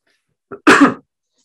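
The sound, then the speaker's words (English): A single cough, heard as a short, softer catch followed at once by a louder, harsh burst, then silence, with no talk around it. “Sorry about that, just coughed.”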